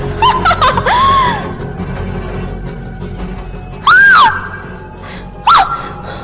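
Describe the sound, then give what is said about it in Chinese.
Several people screaming in fright, with shrill cries that rise and fall in pitch and two very loud bursts standing out near the end. “我们三个大叫着往墙角那边退去。”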